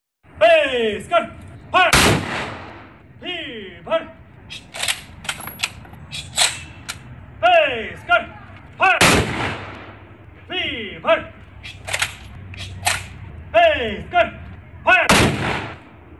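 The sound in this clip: A gun salute fired by Manipur Rifles personnel at the Thangal General temple in the Imphal palace compound: many sharp, loud reports in a regular series, each trailing off quickly.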